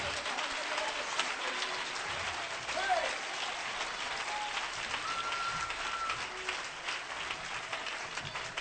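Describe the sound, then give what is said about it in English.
An audience claps their hands during a lively church service, a dense, steady wash of applause that keeps an even level throughout. “Clap your hands and give God praise tonight.”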